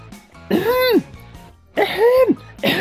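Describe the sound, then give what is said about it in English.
A voice imitates throat clearing with a few exaggerated, strained vocal bursts whose pitch arches up and then down. The bursts are fairly loud, with short pauses between them. “Do you remember the throat clearing?”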